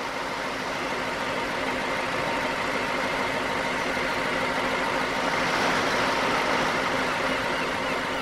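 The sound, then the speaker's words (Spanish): A boat engine drones steadily as the vessel approaches, a continuous low rumble with a broad hiss that swells slightly toward the end. “levanta la mirada al sentir el ruido del motor. Observa a lo lejos la embarcación que poco a poco se acerca.”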